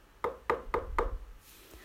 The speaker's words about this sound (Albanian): Pas pak minutash, në port u dëgjuan prap tri trokitjet e leta.